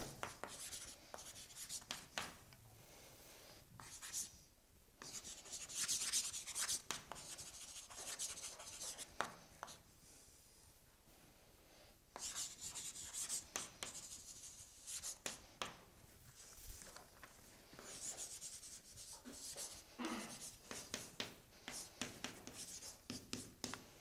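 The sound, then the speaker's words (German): Hand-writing on a board during a mathematics lecture: many short, faint scratching strokes come in irregular bursts with brief pauses, and no one talks. “Das schreibe ich hier nochmal auf.”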